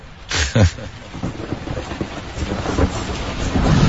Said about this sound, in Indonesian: hingga akhirnya cukup deras. Tuh kan hujan.